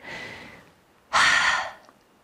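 Two deep, slow breaths. The first is soft and airy, and after a pause a much louder, fuller breath rushes out and then fades.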